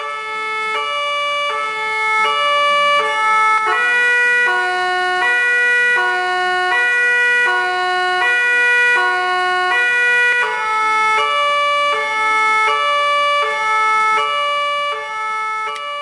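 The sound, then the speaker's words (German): An emergency vehicle siren loudly and continuously alternates between two high tones. It switches a couple of times to a different two-note pattern with another rhythm of alternation, with no voices heard. “Oft wechseln die Einsatzwagen zwischen den Signalen hin und her, um noch besser von den anderen Autofahrern gehört zu werden.”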